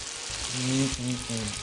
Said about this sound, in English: we'll go ahead and add in our vodka right to the Canadian bacon